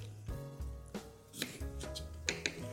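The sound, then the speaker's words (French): A knife cuts through the base of a fennel bulb, giving a few soft, faint knocks and crunches over quiet, steady background music. “Je recommence avec le deuxième fenouil. Je coupe la base”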